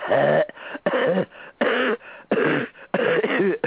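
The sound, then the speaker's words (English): A person deliberately makes deep, rattly coughs, the kind heard with an infection. About five separate voiced, throaty bursts come one after another with short gaps between them. “Often a cough with infection will sound deeper and kind of rattly. Let's see if I can make that kind of cough.”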